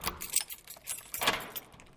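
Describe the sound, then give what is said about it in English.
Keys jangle and clink as someone unlocks the door of a modern two-bedroom apartment, a bright, irregular metallic rattle in several short bursts, fairly quiet and without talking. “unlocks his apartment door.”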